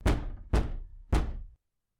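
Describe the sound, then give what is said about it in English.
Three heavy, hollow knocks on a house door, loud and evenly spaced about half a second apart, each thud ringing out briefly before the next. Silence follows the last one. “Who on earth would be knocking now?”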